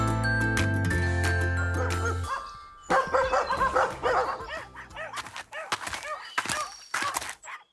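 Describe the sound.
Several dogs bark and yip in rapid, irregular bursts of varying loudness, some sharp and high, others deeper. Tonal music plays at the start and fades out before the barking begins.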